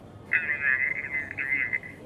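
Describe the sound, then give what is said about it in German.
An electronic reception-desk telephone rings with a continuous warbling trill. It runs from just after the start almost to the end, over low background noise. “Das Empfangstelefon klingelt. Die Anzeige am Apparat kündigt einen Anruf aus einem der Konferenzräume an.”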